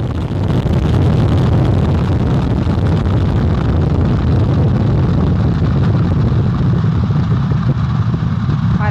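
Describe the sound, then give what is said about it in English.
Artemis 1 rocket liftoff, with core stage engines and two solid rocket boosters producing a loud, continuous roaring rumble that stays dense and steady throughout, with no voices. “4-stage engine start. 3, 2, 1. Boosters in ignition. And liftoff of Artemis 1.”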